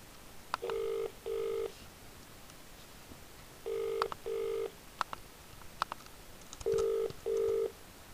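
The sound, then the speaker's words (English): Telephone keypad tones dial an extension on a solicitors' office phone line: six steady beeps in three evenly spaced pairs, separated by faint clicks over a soft hiss. “If you know the extension number of the person you require, please dial it now.”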